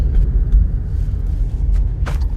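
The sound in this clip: Car engine while driving along a rural road: a loud, steady, low rumble of engine and road noise, with a brief hiss near the end.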